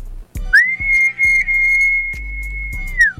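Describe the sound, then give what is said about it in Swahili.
A person whistles one long, steady high note lasting a few seconds, sliding up into it and dropping off at the end, over intermittent low thumps. “Hebu jipongeze na mluzi kwanza mzee.”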